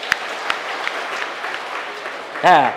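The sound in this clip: An audience at a Buddhist monk's talk claps, a steady patter of many hands with a couple of sharper slaps early on. A voice speaks briefly near the end.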